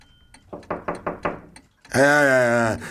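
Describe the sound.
Five quick, evenly spaced knocks rap on a door, followed after a short pause by a voice speaking.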